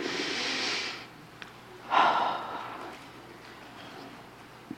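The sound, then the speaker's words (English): Deep breaths from people settling into a guided meditation: a long, soft, airy rush of breath, a pause, then a second fuller breath that swells and fades. Both are faint and unaccompanied by talk. “So, I'll just have you guys start by just getting comfortable, taking a couple of deep breaths.”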